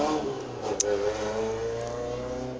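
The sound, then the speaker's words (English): A loud car drives past a window with a low, rumbling engine drone carrying rough harmonics, holding steady throughout with a brief sharp click near the start. “Literally the loudest fucking people in the city decided to fucking drive past my window today.”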